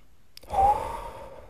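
A single deep breath, drawn in as one soft, airy rush that swells quickly and then fades out gradually like a sigh, with no talk.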